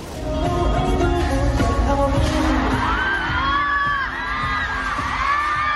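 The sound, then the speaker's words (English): A concert crowd in Hong Kong reacts as a giant screen falls onto the stage during a boy band performance. A loud impact sounds amid dense crowd noise, followed by sustained shouting and shrill, rising screams. “several members of a boy band were crushed when a giant screen fell onto the stage during a concert in Hong Kong. 2 dancers and 3 audience members were injured. Have a listen to the moment it happened.”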